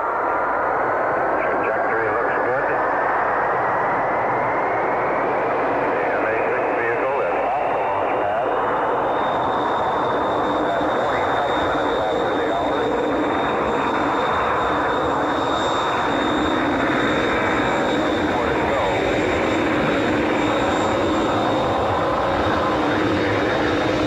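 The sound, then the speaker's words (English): The Mercury-Atlas MA-6 rocket lifting off makes a loud, unbroken rumbling roar that holds steady throughout, with a thin tone rising early on and radio-like voices over the noise. “The MA-6 vehicle has lifted up. The MA-6 vehicle has lifted off.”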